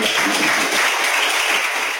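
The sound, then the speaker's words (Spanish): Sustained audience applause after a speech: dense, even clapping that holds steady the whole time, with no pauses or voices. “El aplauso cerrado de ayer.”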